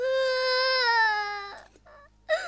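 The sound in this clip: A child cries in a long, high, sustained wail whose pitch dips slightly. Broken, sobbing breaths follow, then a fresh cry starts at the end.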